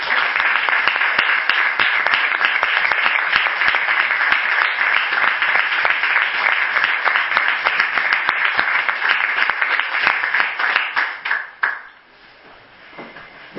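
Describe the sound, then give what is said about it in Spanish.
Audience applause, many hands in fast, dense clapping that holds steady and fairly loud, then thins out and drops to near quiet toward the end. “pediros un aplauso para Carmen”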